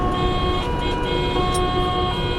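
An emergency vehicle drives on a congested motorway, giving a continuous engine and road drone with a steady tonal hum and no talk.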